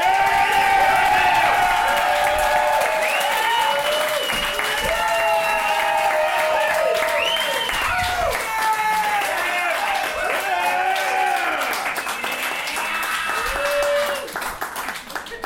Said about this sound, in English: Shut up, you can't clap again.